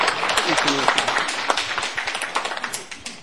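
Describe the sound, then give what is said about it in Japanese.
Meeting attendees clap to approve a chairman, a quick run of many sharp, uneven claps at a fairly even level while people talk over them. “一応会長の承認という形でここで拍手を持ってもらいたいと思いますが、よろしいでしょうか。”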